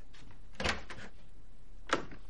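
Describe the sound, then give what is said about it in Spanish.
Door being opened, with a few faint clicks and knocks from the handle and frame. Two sharper thuds stand out in otherwise quiet surroundings. “Se dirige a otra puerta. La abre.”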